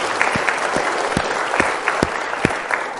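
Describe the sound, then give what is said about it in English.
Applause from a church audience celebrating a girl's baptism, with dense, steady clapping throughout and a few sharper, heavier claps standing out from the wash. “And how cool it is that a congregation of people would cheer like a football game for a girl being baptized. You know, it's a bigger deal than a football game, right? Yeah, so that's cheer again, you know?”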